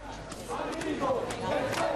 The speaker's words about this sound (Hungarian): Reggel óta egyre nő a tömeg Ecuador londoni nagykövetsége előtt, ahol a WikiLeaks szimpatizánsok már többször is dulakodásba keveredtek a brit rendőrökkel.